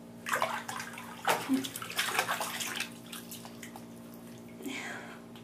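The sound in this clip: Water splashes and sloshes in a bath as people wash. A few uneven splashing bursts come early on, then quieter trickling, and one more soft splash follows near the end.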